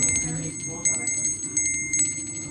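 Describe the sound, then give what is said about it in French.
A small handbell rings to announce the next round of a game, giving a bright, high, shimmering tone that keeps sounding, with a few fresh strikes and a faint background murmur beneath. “Vous avez une petite clochette, c'est pourquoi ? Pour annoncer le prochain round.”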